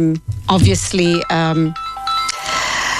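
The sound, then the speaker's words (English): A mobile phone ringing during a live show, a loud electronic ringtone playing a melodic run of bright tones that shift in pitch, continuing steadily to the end. “Sorry about that. I forgot to switch off my phone when I started the show.”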